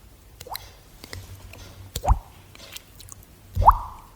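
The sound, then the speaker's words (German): A mouth imitates water dripping. Three distinct liquid plops with a quick upward pitch sweep are spaced apart, with faint clicks and soft mouth noises between them. “so Tropfgeräusch. Ich finde das super und das lenkt mich ab im Unterricht”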